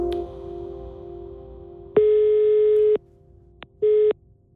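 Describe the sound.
Telephone line tone on a call to the Danish tax authority: a steady low tone runs for about two seconds, then a longer, buzzier tone sounds for about a second, followed by a short click and a brief final tone.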